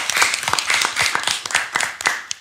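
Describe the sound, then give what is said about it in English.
Hand clapping in a dense, steady burst of many quick, irregular sharp claps lasting about two seconds, fairly loud, with one last isolated clap after a short gap. “Clap it up for him for that, man.”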